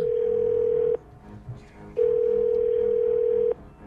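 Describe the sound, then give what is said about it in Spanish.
Telephone dial tone heard while a number is redialed: a steady, mid-pitched hum sounds loudly for about a second, stops for a short gap, then returns for a longer stretch before cutting off. “¡Vuelve a marcar!”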